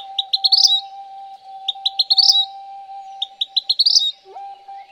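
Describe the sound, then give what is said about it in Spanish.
A vermilion flycatcher sings three repeated phrases of quick, high chirps that speed up into a bright trill. A steady low tone runs faintly beneath the song throughout. “El mosquero cardenalito o papamoscas cardenalito es un ave que tiene preferencia por las regiones áridas y semiáridas”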